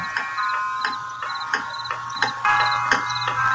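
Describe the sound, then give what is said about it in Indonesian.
A wall clock ticks in a quiet bedroom at night, giving steady, evenly spaced ticks over a faint low hum. “Saking heningnya bisa ku dengar suara detik jam dinding di kamarku yang seakan bergema”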